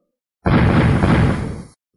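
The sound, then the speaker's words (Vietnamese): A dull, muffled explosion as golden lightning shatters protective auras in a fantasy battle: one loud, sustained, rumbling burst of about a second that fades away, with no voices. “Từng tiếng nổ trầm đục vang lên”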